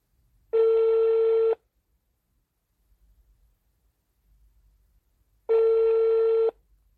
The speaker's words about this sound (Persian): پس طبق روال همیشه بریم که باهاشون تماس بگیریم و زودتر مکالمه‌مون رو شروع کنیم.